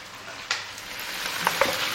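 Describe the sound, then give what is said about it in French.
Steady sizzle of chicken thighs frying in a pan with herbs, a dense hiss broken by a few sharper pops and spatters. “Alors à présent, je vais prendre les cuisses de poulet. Donc je les fais revenir.”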